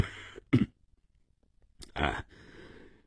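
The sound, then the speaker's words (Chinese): A man coughs quietly, giving a few short, husky, throat-clearing bursts separated by a pause of near silence. “过了一会儿，洛金的父亲咳嗽了一声。”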